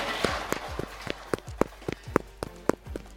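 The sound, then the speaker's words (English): Footsteps of someone in a yellow hazmat suit running past, a steady run of many sharp, evenly spaced thuds that keep a brisk rhythm from start to end. “Did someone just run by wearing a yellow hazmat suit?”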